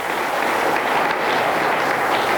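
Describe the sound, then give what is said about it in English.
Applause from an audience fills a radio station break, a dense, even wash of many hands clapping at a steady loudness throughout, with no voices over it. “I have many station breaks on tape, and that's the only one I have that has applause behind it.”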